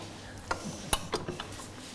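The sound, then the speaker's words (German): Faint metallic clicks and clinks as a stand mixer's beater is taken off and a whisk attachment fitted in its place, a few sharp taps spaced irregularly. “Fehler passieren, so wie hier jetzt, ist das halt nicht der Rührer, mit dem man das schaumig rührt, sondern es muss der sein. Also wird er nochmal gewechselt.”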